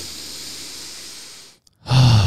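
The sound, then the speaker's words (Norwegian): A deep breath drawn in, heard as a long, steady breathy hiss. It stops for a brief silence, then a louder, lower breath follows. “Jeg bare trekker pusten sånn at jeg finner rett modus.”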